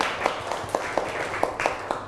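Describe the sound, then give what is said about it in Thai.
Students in a classroom clap for a classmate who answered correctly: a soft, steady series of evenly spaced claps at a brisk beat. “ปรบมือให้เพื่อนหน่อยเก่งมาก”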